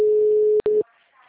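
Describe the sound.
Dropped phone call tone: a steady, loud, mid-pitched beep holds for over half a second, breaks off very briefly, then resumes for a short moment before cutting out and leaving faint background noise.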